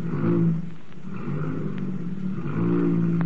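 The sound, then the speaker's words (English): A car motor running at a steady, low, continuous hum, with slight swells in level but no strong revving. “Now, I'll just step inside here and see how the motor sounds.”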